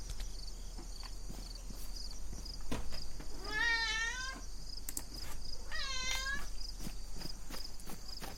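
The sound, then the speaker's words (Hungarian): A house cat meows twice, two clear, tonal, drawn-out calls a couple of seconds apart, each with a slightly wavering pitch, over steady low background noise and scattered faint clicks. “Miért hisztizel? Nagyon sok mondandója van ma a macskának.”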